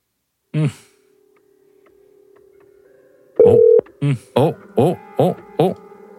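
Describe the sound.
Telephone tones sound as a call comes in on a call-in line: one short tone, a pause filled with faint hum, then a louder burst followed by a quick run of short electronic beeps.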